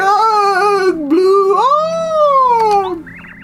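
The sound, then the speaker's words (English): Ghosts in the video game Paper Mario give off loud, wavering, wailing moans. The pitch wobbles, dips low, then swells up into a long eerie tone that slowly sinks away. “Do you hear those wailing ghost noises? I hear the wailing ghost noises.”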